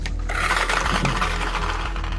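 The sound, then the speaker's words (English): The draft lottery machine spins, tumbling large envelopes in a hopper with a continuous dense clatter, rustle and mechanical rattle that keeps up without pause or voices. “Okay, so we'll start the machine and we'll draw for the first pick.”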